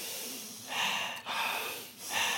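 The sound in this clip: Soft, airy breathing as someone inhales through the nose and exhales through the mouth, with a few hissing breaths over a quiet background.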